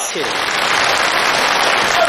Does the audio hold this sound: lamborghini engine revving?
no